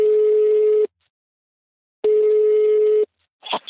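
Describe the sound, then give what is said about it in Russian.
A telephone ringing tone on a call: two long, steady, mid-pitched beeps separated by a second of silence, followed by a brief click-like noise at the end. “Сейчас позвоним и обсудим.”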